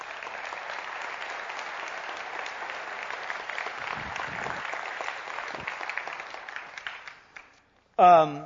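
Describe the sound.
Audience applause welcoming a guest, the speaker's son, to the stage at a speaking event: a steady, dense patter of clapping that fades out before a man begins talking.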